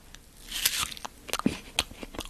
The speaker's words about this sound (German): ich mache jetzt ein Geräusch und ihr dürft raten, was das für ein Apfelknacken ist.